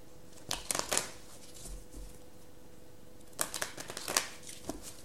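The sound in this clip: Oracle cards are shuffled and drawn in two bursts of quick, crisp, papery flicks and riffles, with a quiet pause between them. The sounds are fairly soft.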